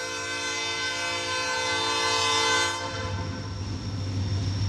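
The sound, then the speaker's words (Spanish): A train horn blares in one sustained, steady chord for nearly three seconds as the train runs along the railway track, then cuts off, leaving the broad rumble and clatter of the passing train. “Cerramos este episodio pegados a la vía del tren con Fernando Tavero, compañero de AS.”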